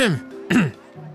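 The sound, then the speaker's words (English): A woman clearing her throat with two short rasping vocal bursts close together, followed by a quieter brief hum. “looks both ways and then clears her throat”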